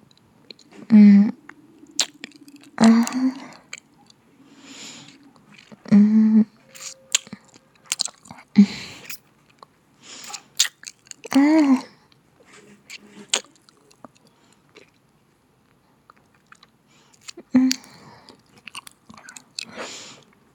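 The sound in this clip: An animal licks a person's sweaty, unwashed skin, making wet, smacking mouth sounds that come in irregular bursts. Soft talk is heard intermittently alongside.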